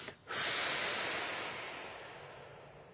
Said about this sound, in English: Take a breath and blow it out. Any resistance? Take a breath, blow it out.